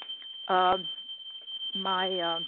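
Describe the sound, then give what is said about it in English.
A smoke detector alarm going off, holding one steady, piercing high tone through the whole stretch while people talk over it. “oh, my goodness, the smoke detector just went off. Oh, my gosh. You know what? I think I better go outside because we don't want the smoke detector stealing our thunder”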